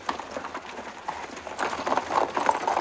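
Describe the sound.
Hooves of mounted police horses riding out toward protesters: a dense run of clip-clopping beats that grows louder and busier in the second half.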